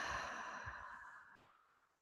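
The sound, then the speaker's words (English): A deep breath exhaled after breathing in through the nose, one soft, breathy rush of air that is quiet throughout and fades away over about two seconds. “I'm taking some deep, luscious breaths in through the nose. And exhaling.”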